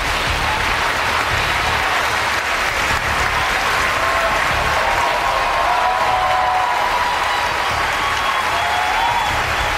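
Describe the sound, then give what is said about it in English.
Audience applause at a Democratic town hall welcoming Senator Bernie Sanders of Vermont, a loud, continuous wash of many clapping hands with some crowd cheering, sustained evenly for about ten seconds. “But first, please welcome Senator Bernie Sanders of Vermont.”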